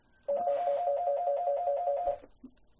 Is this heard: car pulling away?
no